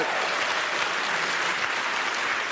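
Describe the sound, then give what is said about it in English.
An audience applauds at a live event in Los Angeles, with dense, even clapping that holds at a steady loud level for the whole stretch without rising or dropping off. “That will always get applause in Los Angeles.”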